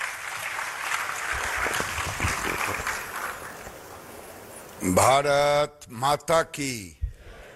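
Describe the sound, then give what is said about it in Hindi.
Audience applause welcoming India's textiles minister at a National Handloom Day event. Steady, dense clapping runs for about five seconds before a loud voice cuts in. “और अब मैं आमंत्रित करने जा रही हूं श्री गिरिराज सिंह जी को माननीय वस्त्र मंत्री भारत सरकार आपसे अनुरोध है कि भारत के हथकरघा क्षेत्र के भविष्य के लिए अपना संबोधन और दृष्टिकोण साझा करें जोरदार तालियों से स्वागत कीजिए”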